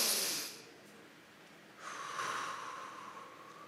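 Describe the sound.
A voice imitates an exaggerated deep breath in during a massage: a brief breathy rush, a pause, then a longer, drawn-out, faintly whistling inhale, all quiet and without words.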